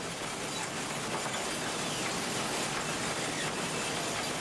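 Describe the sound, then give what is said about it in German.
A coal-fired steam locomotive more than 100 years old runs on the Schneeberg mountain railway, giving off an even, unbroken rumble and rush of running noise with no voices. “Die Arbeit auf der kleinen Lok ist schwer. Nicht nur, dass sie beständig nach Kohle verlangt, die über 100 Jahre alte Maschine erfordert sogar während der Fahrt die pflegende Hand des Lokführers.”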